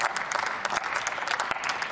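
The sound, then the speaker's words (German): Applause in a parliamentary chamber during a debate on a Moselle shipping-levy bill, a thick, even patter of many hands sustained for the whole stretch with no speech over it. “Und da können wir gerne noch mal klatschen für Herrn Wissing.”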